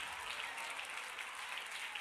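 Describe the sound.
An audience clapping hands: a faint, continuous spatter of many claps that fills the whole two seconds. No speech is heard over it.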